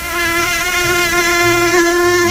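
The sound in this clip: A mosquito buzzes in a continuous, loud, high-pitched whine that holds a steady pitch with slight wavering throughout, with faint low noises beneath.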